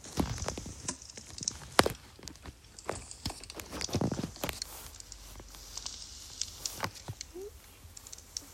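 Footsteps of a video game character walking downward, many soft irregular taps and light crunches at a faint level, with a few sharper clicks among them.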